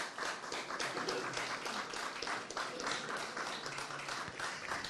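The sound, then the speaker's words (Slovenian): Audience applause at an exhibition event, steady and dense clapping that holds at an even loudness through the whole stretch without pause. “Evo, aplauz. Bravo.”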